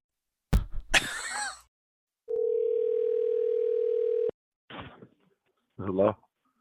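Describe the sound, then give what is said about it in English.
A telephone dial tone sounds as one steady, single-pitch hum for about two seconds, with brief clicks and short noises before and after it. “I hear some dialing.”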